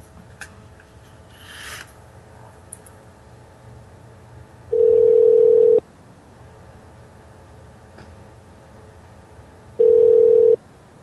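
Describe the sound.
Two rings of a telephone ringback tone on an outgoing call, each a steady mid-pitched buzz lasting about a second, separated by several seconds of quiet line hiss.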